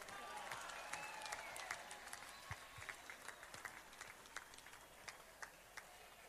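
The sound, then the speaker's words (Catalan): Applause for the board of Sant Andreu's Festa Major: a crowd claps faintly, with sharp individual claps standing out in a steady, scattered pattern throughout. “I demano per la Junta, fem un gran aplaudiment.”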